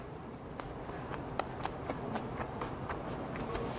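Crunchy biting and chewing of a soy sauce and sesame dish, heard as several faint, sharp clicks spread over a steady background hiss, with no talk.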